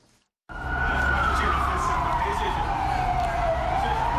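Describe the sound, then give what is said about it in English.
A siren on a police water cannon vehicle wails as officers break up a protest in Harare, Zimbabwe. It cuts in loudly after a brief quiet moment, one long tone that slides slowly downward and then lifts slightly near the end. “That is the siren of a water cannon vehicle wailing as Zimbabwean police tried to break up a protest calling for the resignation of President Robert Mugabe.”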